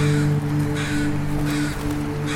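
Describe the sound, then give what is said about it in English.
Crows give a harsh scold call, gathering around a dead crow; a few rough, loud caws sound over a steady low hum. “They will produce the scold call, caw, caw, caw, caw. And they'll be flying around in the trees.”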